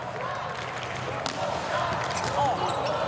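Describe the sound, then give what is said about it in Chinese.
A ball struck for a serve at a men's international volleyball match, with one sharp hit over steady crowd noise while a commentator talks. “图布奇的发球”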